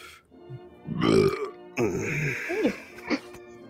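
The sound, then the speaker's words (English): A person lets out loud, throaty burps, two drawn-out belches following a quieter rumble at the start. “That was a good burp, please.”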